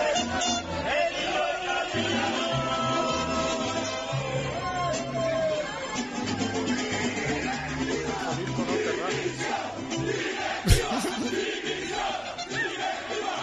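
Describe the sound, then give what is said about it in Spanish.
A protesting football crowd at La Romareda during Zaragoza versus Málaga, joined by mariachis: a dense, steady roar of chanting and jeering voices mixed with mariachi music, the crowd keeping time with it. “Bueno, es que ahora es un método casi que está de moda, de protesta, de llevar mariachis cuando... se han fundido los mariachis con la bronca. Bonita forma de protestar.”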